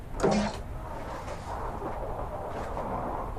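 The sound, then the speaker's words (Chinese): A room door on an upper floor is opened, with a brief creaking click near the start and then a quiet background. “打开一间房门。”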